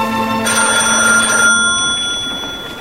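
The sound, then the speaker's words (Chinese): A telephone rings in a home study, a loud, bright electronic trill with steady tones that sounds for over a second and then fades into a low hum. “电话铃响了，罗雪赶忙去接电话。”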